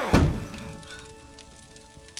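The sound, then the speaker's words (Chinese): A door slammed shut, one loud heavy thud at the very start followed by a long fading decay, then quiet. “砰的一声把门带上了”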